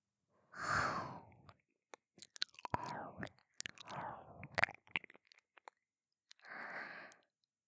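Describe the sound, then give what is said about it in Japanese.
Gentle ear-nibbling ASMR: soft, breathy mouth sounds with moist little clicks and light nibbles, quiet and close, with a couple of longer breathy swells at the start and end. “まずはお姉ちゃんのお耳を甘く噛ませていただきます。”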